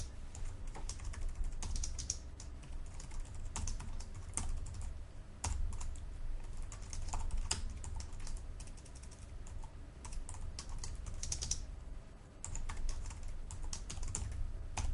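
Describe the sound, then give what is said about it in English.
Code being typed on a computer keyboard gives a steady stream of rapid, clattering keystrokes that runs continuously with only a brief lull. “Now, let's write some code in our button 1 underscore click event handler. And the code that I want to write is”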